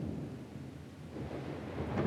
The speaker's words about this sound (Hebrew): אני ממש לא אוהבת רעמים וברקים וגלים חזקים.